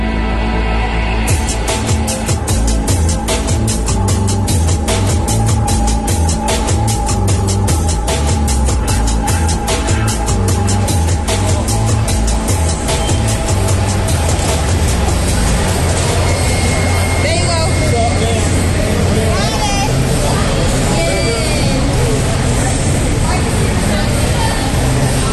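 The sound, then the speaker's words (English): Crowd din fills Carmichael Gym during a blood drive where over 1,000 donors and volunteers turned out. A loud, unbroken hubbub of many overlapping voices and activity runs steadily throughout. “This was the sound of the Carmichael Gym on Friday, where over 1,000 donors and volunteers turned out to try and break the record set by Appalachian State.”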